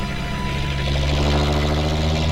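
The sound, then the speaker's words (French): Steady engine drone from a coach driving fast through wet streets, a low humming tone that grows slightly louder after the first second and holds evenly. “L'autocar roule vite. Il attaque les virages à droite, à gauche. Il bondit dans les rues.”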